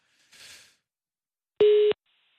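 A telephone call tone while phoning a government ministry line: a soft hiss first, then one steady, clear tone held for about a third of a second before silence.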